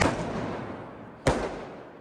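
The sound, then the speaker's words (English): Firework going off during street unrest in Atlanta, Georgia, where windows were smashed: one sharp, loud bang about midway through, rising over a constant noisy background that continues before and after it. “So fireworks are going off.”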